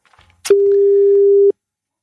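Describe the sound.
Telephone call tone while dialing out: a click, then one loud, steady, mid-pitched tone held for about a second before cutting off cleanly. No voices.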